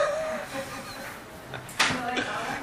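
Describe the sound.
A door or window being shut in a room, a single sharp knock-like thud with a brief low rattle, set against quiet talk.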